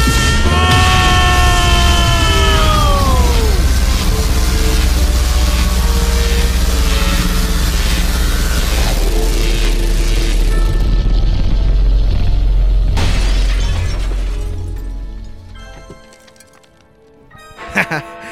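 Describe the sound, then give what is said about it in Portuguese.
An atomic disintegrator ray gun fires and explodes in a comedic Christmas scene. Descending whining sweeps lead into a long, loud roaring blast that fades out, followed by a couple of soft thuds. “Isso aqui é um desintegrador atômico criado pelo PDC. Agora sintam toda a epicidade! Recebam!”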